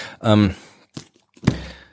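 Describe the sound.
Two dull thumps of books being set down on a table, short and moderately loud, following a brief vocal sound at the start.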